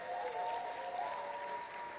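Applause from an audience at a Sunday campus gathering, thanking the volunteers who served. The crowd claps steadily and moderately, with a faint sustained tone running alongside, before the sound eases slightly near the end.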